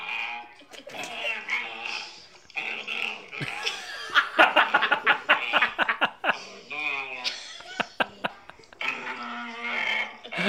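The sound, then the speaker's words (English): A dog making odd vocal noises while licking and moving its tongue: irregular bursts of squeaky, warbling grunts broken by wet clicking sounds, rising and falling in loudness. “He's like making the noise as he's licking his tongue or moving his tongue”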